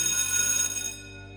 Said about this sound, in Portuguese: O sinal tocou, como usualmente nesse horário, alertando os alunos a irem embora.